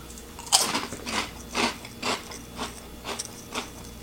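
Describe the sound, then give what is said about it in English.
Crunching bites and chewing of extremely crispy Lay's Poppables potato snacks: a series of loud, sharp crackling crunches at a fairly even pace, with no talking. “All right, but how does it taste? So here we go. Three, two, one. Poppables from Lay's.”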